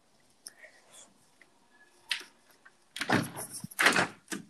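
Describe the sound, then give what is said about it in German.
A window slides shut with a quick scrape and knock, among soft whispered talk, followed by louder rustling and handling bursts. “Warte, ich habe Fenster noch nicht zugemacht, Mann. Warte.”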